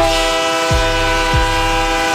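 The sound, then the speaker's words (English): A train horn played as a sound effect, one loud chord-like blast held unbroken from start to finish over a low rumble of rolling rail cars. “Let's get him on this train.”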